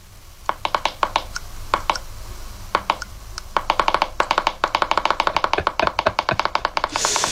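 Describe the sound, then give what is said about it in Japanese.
Popping clicks come from pressing the domed lid of a jar of seasoned seaweed paste. Many sharp, hollow pops sound, scattered at first and then running into a fast, steady series of repeated presses. “いわゆるこう蓋の上、ちょうどあの桃の部分ですかね、あの商標的にあそこ、ポコポコポコポコ。”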